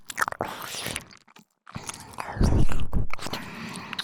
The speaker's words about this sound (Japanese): 私の舌思いっきり感じてください。ペロペロする音、このくらい直接聞いてください。